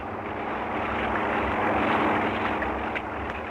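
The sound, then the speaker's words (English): Steady, droning engine rumble of an airplane landing near a huge native village after eight hours of flying. The noise stays continuous and even, swelling slightly midway. “After 8 hours of flying, we saw a huge native village below us. We circled the place and decided to risk a landing. We had no means of knowing if the natives were hostile, but we decided to gamble our skill with theirs, and so we dropped down.”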